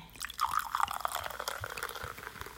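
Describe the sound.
Fizzy cider from a freshly opened bottle is poured. It makes a faint, crackling fizz with scattered pops and a light trickle, heard alone without voices.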